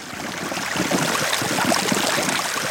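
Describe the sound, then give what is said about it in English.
A meltwater river flows across the top of the Greenland ice sheet during a warm summer. The water makes a steady, full rushing and gurgling sound that stays loud throughout, with no voices. “It is a river, but it's on top of an ice sheet. That's the sound of the Greenland ice sheet melting this summer.”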